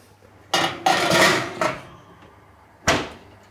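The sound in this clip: Dishes clatter as they are loaded into a kitchen oven, a few bright metallic knocks and scrapes in irregular bursts, then a pause before one last sharp clank.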